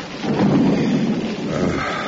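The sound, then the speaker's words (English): Steady rain with thunder, a continuous rumbling roar holding fairly loud throughout with a broad hiss of falling water, no voices. “Curse this rain.”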